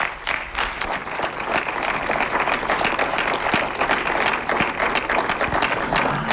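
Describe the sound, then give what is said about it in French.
Audience applause closing a guest's talk at a public event, many hands clapping in a steady, moderately loud patter, with a few sharper single claps standing out. “je crois qu'on peut une dernière fois vous applaudir parce que ça a été très fort”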